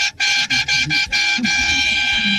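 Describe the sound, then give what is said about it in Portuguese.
Car horn honking in a quick run of short beeps that merge into one long, sustained blast, a loud steady tone held to the end. “Buzina aí, filho, buzina aí, vai.”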